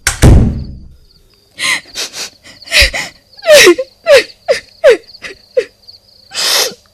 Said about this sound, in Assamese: দে, দুৱাৰখন মাৰি থ